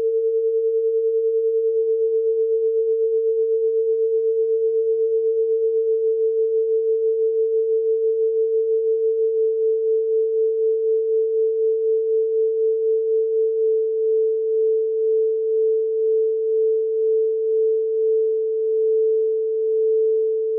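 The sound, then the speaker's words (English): A steady pure tone from a bagpipe tuning demonstration, starting out of tune and moving back toward in tune. Its pulsing beat slows and widens over about twenty seconds as the pitch settles. “So I'm going to set this one out of tune. Okay, and here it is. Now I'm going to move this in a direction, and I want you to tell me if you can hear it getting better or worse.”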